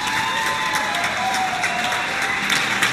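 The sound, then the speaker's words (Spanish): Applause rises from balconies and windows across Spain, from Madrid to the Basque Country and Tenerife, as a standing ovation around 10 p.m. during the coronavirus measures. Dense, steady clapping from many hands runs throughout without a break, with no voices. “Los balcones y ventanas de todo el país, de Madrid, del País Vasco, de Tenerife... Impresionante. Se convirtieron en un inmenso patio de butacas. En pie, claro, para ovacionarles a ellos.”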